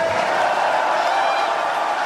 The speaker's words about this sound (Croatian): molim jedan veliki aplauz za članove i birače HDZ-a.